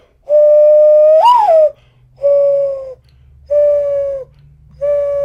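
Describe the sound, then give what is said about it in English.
A human voice whistles an imitation of a mourning dove's call: four clear, hollow tones, the first swelling and rising then falling in pitch, followed by three steady, lower notes with short pauses between them. “The Mourning Dove goes, I can do it like this.”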